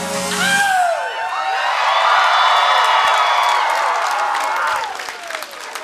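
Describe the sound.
A concert crowd in Melbourne cheers, whoops and applauds loudly, with rising and falling shouts and whistles over sustained clapping that fades near the end.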